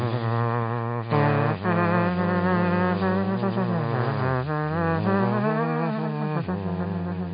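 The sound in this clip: Bees buzzing loudly as a continuous, rich drone whose pitch wanders up and down like a tune, with a few short breaks in the sound.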